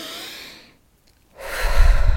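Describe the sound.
Deep, deliberate breathing: one breath fades out, a short silent pause follows, then a louder, rough breath with a breathy low rush.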